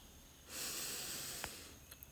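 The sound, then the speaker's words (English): A deep inhale through the nose during a guided breathing exercise, a soft, faint airy swell that builds, holds for about a second and then tapers off. “Inhale deeply through the nose.”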